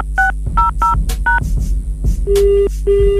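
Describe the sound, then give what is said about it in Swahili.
Telephone keypad dialing tones sound as someone is added to a conference call: four quick touch-tone beeps, then two longer steady tones, loud and clear over a low hum. “naomba usikate simu. Kuna mtu nataka nimuunge hapa conference call.”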